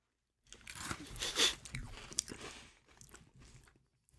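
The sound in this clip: Someone chews red, cherry-flavoured fruit candy, making faint, irregular crunches and mouth sounds that trail off softly.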